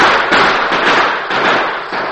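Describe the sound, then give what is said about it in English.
Rapid gunfire in a Western shootout between a posse and cornered outlaws: a loud, dense crackle of overlapping shots that runs continuously with only slight dips. “A moment later, a bullet struck Basie in the arm. A second bullet in the shoulder put him out of the fight.”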